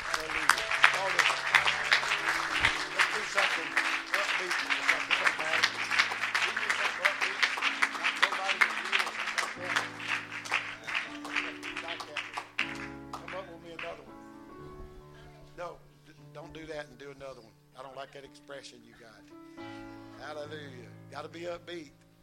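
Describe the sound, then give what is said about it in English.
Church audience applauding, the clapping dense and loud over steady instrumental music for the first half, then thinning to scattered claps as the music continues. “Let's put our hands together right now.”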